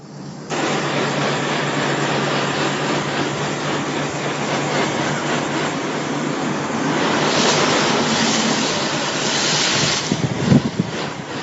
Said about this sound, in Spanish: Se trata del sonido del agua saliendo de una manguera.